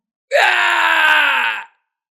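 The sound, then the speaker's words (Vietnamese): An anguished scream from a man pierced through the heart by an arrow and pinned to a wooden post on a watchtower at night. It is a single loud, sustained cry, rising sharply at the onset, then sliding slowly lower before cutting off. “Tiếng kêu thê lương thảm thiết vang lên, vang vọng dưới bầu trời đêm.”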